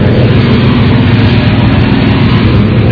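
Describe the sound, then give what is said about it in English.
Steady engine roar from a NASCAR race car running in a motor test outside its garage: a constant, heavy low drone with a broad rumble, holding at one level with no breaks or revving. “I'm outside the DeWalt pit, the DeWalt garage, and the DeWalt guy's car's motor”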